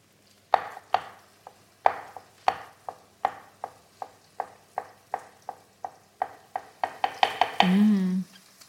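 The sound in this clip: A knife chops a boiled egg small on a cutting board while a sabich sandwich with aubergine and tahini is being made. Many crisp, evenly spaced strikes quicken toward the end, followed by a short hum of voice.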